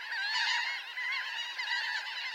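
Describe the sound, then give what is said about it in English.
Laughing gulls calling, many nasal, laugh-like calls overlapping in a steady, busy chorus with no pauses and no talking. “Some gulls, like these laughing gulls, and also the Bonaparte's gull, add dapper black or brown hoods for the breeding season.”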